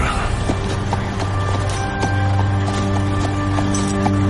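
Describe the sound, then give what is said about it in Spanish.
Horse hooves clip-clop as a horse is led into a horse trailer. The knocks come as a steady run of hoof strikes over a low, constant hum. “Sube al animal a un remolque para equinos.”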